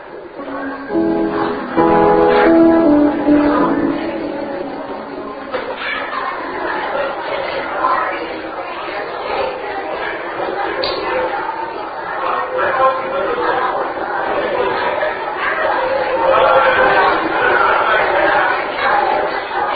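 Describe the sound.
A church audience welcomes and greets one another as many overlapping voices chat and murmur together. The busy, moderate hubbub of conversation continues without a break.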